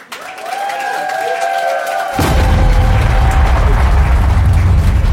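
A bomb explosion sound effect: descending whistles slide down in pitch, then a sudden loud blast breaks into a dense, sustained roar of rumbling noise that lasts to the end.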